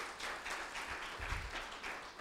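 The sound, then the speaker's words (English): A church audience claps to welcome a guest speaker during a morning service. The applause is fairly quiet, steady and continuous, with a few soft low thumps, and lasts only a couple of seconds. “Let's give her a hand. So without further ado, I want you to put your hands together and give Brad a warm welcome.”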